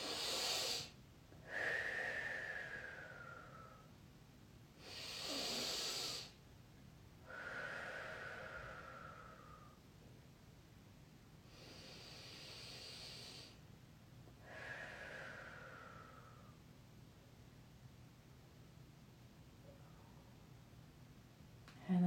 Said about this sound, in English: I'm just going to take another moment to do some more deep breaths.